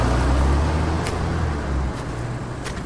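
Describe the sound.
A car engine runs as the car pulls away from a house, a steady low rumble with broad road noise that eases slightly in loudness toward the end.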